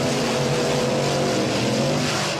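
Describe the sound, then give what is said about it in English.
A monster truck engine running: a loud, steady, low rumbling drone with layered harmonic tones, heard alone without voices. “Yes, that was a monster truck.”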